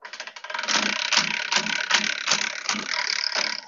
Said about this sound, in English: My pasta machine, there's something wrong inside of it, and I, I want to take it apart, but I'm also scared to take it apart.